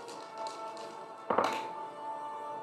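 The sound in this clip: A die lands on a table during a tabletop role-playing game: one sharp thunk that fades quickly, heard alone over a faint steady hum.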